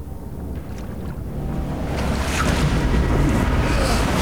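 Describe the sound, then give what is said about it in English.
Frothing ocean waves battering a surfboard, a rushing wash with wind noise that builds from a softer start to a louder, steady churn in the second half. “Above him, his surfboard is battered by the frothing waves.”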